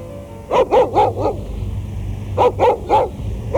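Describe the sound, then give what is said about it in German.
A stray dog from a poor quarter of town barks in two quick runs of four sharp, mid-pitched barks, separated by a pause, over a steady low rumbling background. “Schon wieder ein Hund. Offenbar einer aus dem Armenviertel.”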